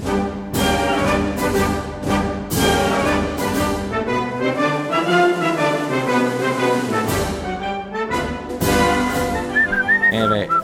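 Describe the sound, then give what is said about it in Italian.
A person whistles a military march: a loud, bright, rhythmic tune with frequent sharp accents and a lively marching pulse, heard with no talking over it. “tu continui a fischiettare perché era colui che era con Judy che fischiettava il Semper Fidelis”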